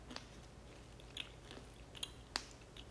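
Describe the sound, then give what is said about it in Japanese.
Chewing a crunchy hard candy that has a soft chewy centre: faint, sparse crisp crunches, a few sharp bites over a quiet background with no talk. “パリパリのキャンディー層と、もちもちのソフトキャンディー入ってんだね。噛んだらいけないやつじゃないこれ。”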